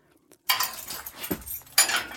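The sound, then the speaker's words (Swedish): Keys rattle in the locks of a jail cell door as it is opened, giving faint metallic clatter in irregular bursts with a sharper burst near the end. “Och så avbryts jag av nycklar i låsen och att dörren till min cell öppnas.”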